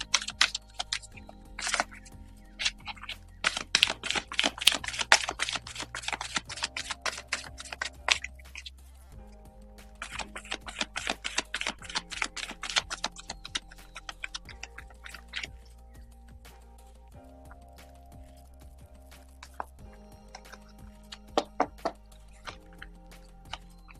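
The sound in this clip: Cards are shuffled for a spiritual card reading, making bursts of rapid, crisp flicking and riffling clicks. The bursts are dense early on and thin out into sparse, quieter taps.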